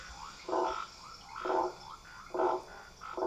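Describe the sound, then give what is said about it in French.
With the insects removed, frogs croak alone: four faint, rasping croaks, evenly spaced about a second apart, over a soft steady hiss. “Voilà, on enlève les insectes. Voilà, on n'entend plus que les batraciens.”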